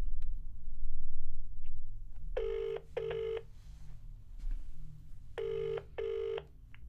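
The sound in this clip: A telephone rings in two double-ring cycles, each a pair of short, buzzy tones with a pause between the pairs, over a faint low background.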